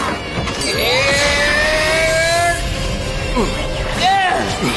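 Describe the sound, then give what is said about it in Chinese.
Thrusters starting up: a loud, continuous rushing roar laced with whining tones that slide upward, and voices talking over it throughout. “推进器启动”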